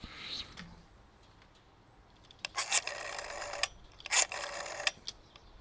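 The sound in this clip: A telephone rings with an incoming call, two bright bursts of ringing separated by a short pause, each lasting about a second, over faint background noise.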